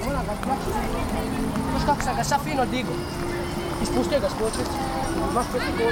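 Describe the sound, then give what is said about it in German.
A busy café terrace on a riverbank, full of overlapping voices and scattered clattering, keeps up a steady, moderately loud bustle throughout. “Auf der Terrasse des Cafés am Flussufer ist Betrieb.”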